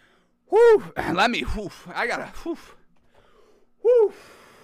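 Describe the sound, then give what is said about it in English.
Two loud, voiced gasps from a person catching their breath, with a brief stretch of breathy vocalizing between them and quiet pauses around them. “All right, had to catch my breath there for a second, folks. Y'all got me freaking going crazy over here, folks. Y'all got me breathless out here.”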